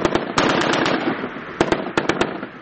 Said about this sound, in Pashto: د کمانډو ځواکونو د سلری ملي واسر تیری دي چې د جګړې لکوته ترستنې دوه مخ کې د خپل ځواک شودنی په موخه د سپکو او درنو وسلو تمرینونه ترسره کوي